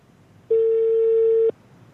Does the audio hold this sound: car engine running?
no